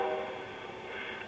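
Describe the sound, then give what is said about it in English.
A train passing by makes a steady, broad rumbling roar that holds at an even level throughout, with no talking. “It's time for the train. That's a great sound.”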